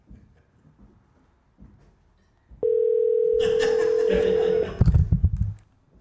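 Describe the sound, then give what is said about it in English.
A telephone call rings out as a single steady, loud electronic tone held for about two seconds, then a few clattering bursts of noise. “We're calling you now.”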